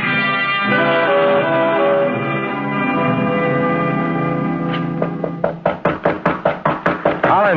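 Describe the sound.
Rapid, loud knocking on a door, a long run of evenly spaced raps that follows sustained music and carries on to the end.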